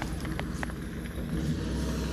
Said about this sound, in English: a truck just drove by me.